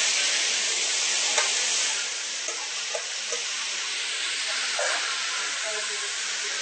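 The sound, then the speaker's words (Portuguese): Bell pepper, green beans and zucchini sizzle steadily as they sauté with onion in a pan, with a few faint clicks of stirring through the constant hiss. “Aí coloca o pimentão, a vagem e a abobrinha.”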